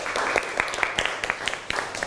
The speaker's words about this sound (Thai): อันนี้ปรบมือให้เพื่อนหน่อยครับ